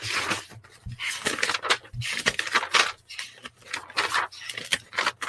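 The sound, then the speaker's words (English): Paper rustling as notebook pages are handled and flipped, with many irregular crinkly, papery bursts separated by short pauses, moderately loud and with no talking. “Sorry about the paper noise, guys.”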